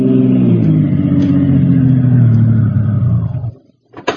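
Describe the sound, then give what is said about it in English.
Taxi cab engine driving and pulling up: a loud rumbling motor whose pitch drops steadily as the car slows, then cuts out into quiet before a brief sharp sound at the very end. “Steve is on his way to the south side of Big Town in the cab of Harry the Hack and pulls up in front of an all-night diner in the warehouse district.”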